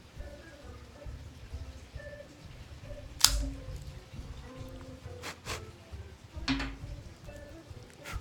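A cigar cutter snipping the large triple cap of a cigar, heard as a few sharp, dry clicks spaced across a quiet stretch with a faint low hum underneath.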